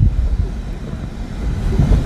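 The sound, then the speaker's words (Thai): Steady low rumble inside a moving car on a mountain, with a constant dull road and engine drone and wind-like buffeting, and no one talking. “ลืมไปในขณะที่เรากำลังอัดพอดแคสต์นี้อยู่ เรากำลังอยู่บนรถ”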